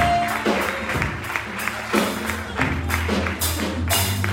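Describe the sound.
Applause from a church audience celebrating a member's birthday: dense, steady clapping that continues without a break, with some low tonal sound underneath.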